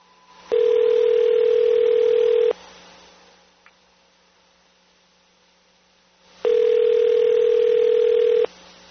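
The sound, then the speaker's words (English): Ringback tone from an outgoing telephone call to Chicago: two steady, identical tone bursts of about two seconds each, separated by a long silent pause with a faint click, with no voices. “I hope this guy picks up. It's kind of like it's midnight over there in Chicago.”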